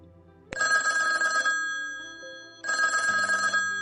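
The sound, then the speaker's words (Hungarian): A telephone rings as a call is placed to a guest: two loud electronic ring bursts with steady, bright tones, separated by a softer, fading tone. “én most felhívom őt, és néhány percre bekapcsolom ebbe az adásba”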